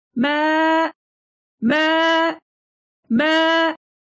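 A sheep bleats three times on a cold, dark night, lost from its flock: long, loud, nasal cries of similar length and pitch, separated by short silences.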